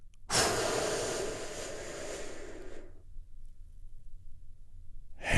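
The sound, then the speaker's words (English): One big, deep breath drawn and released, a long loud breathy rush lasting a couple of seconds before fading to quiet. “Join me in taking a big, deep, healing breath right now.”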